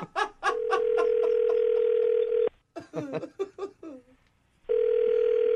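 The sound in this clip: A telephone dial tone: a steady, continuous hum that runs for a couple of seconds and cuts off abruptly. A short burst of speech-like sound follows before the same tone returns.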